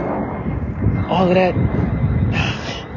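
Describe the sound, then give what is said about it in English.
An airplane leaves with a steady, broad roar while a person talks over it. “And this plane is taking its time leaving.”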